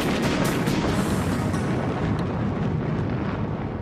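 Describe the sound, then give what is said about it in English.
A concrete and steel building is brought down by explosive demolition in a deep, continuous roaring rumble. It stays loud and steady throughout, with a few crackling bursts early on and no voices. “Massive buildings of concrete and steel blown away at a push of a button. 2, 1, fire!”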